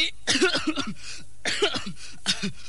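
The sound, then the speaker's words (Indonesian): Coughing from a person standing in a marching formation drill: several short bouts of rapid, dry coughs and throat-clearing bursts, fairly loud, separated by brief pauses. “Kak! Hei, kenapa ini? Baris kau pakai batuk-batuk segala.”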